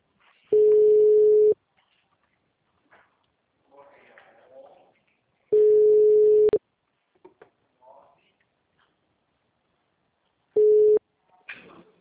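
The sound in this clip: Ringback tone of an outgoing telephone call: three steady, evenly spaced mid-pitched rings, each about a second long, with long quiet gaps between them holding faint scattered sounds.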